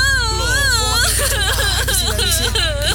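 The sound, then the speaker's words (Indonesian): Crying and sobbing: loud, continuous wailing with wavering, high-pitched sobs that rise and fall in pitch, over a steady low hum. “nih sapu tangan untuk ngelap air mata kamu. Udah ya, jangan nangis.”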